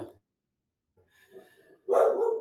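A dog gives one loud, rough bark at the end, after a few faint, softer sounds following a stretch of near silence.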